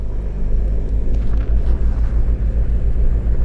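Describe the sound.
Small aircraft flying over Outback Australia, a loud, steady low engine drone that holds without break, with only slight wavering in level.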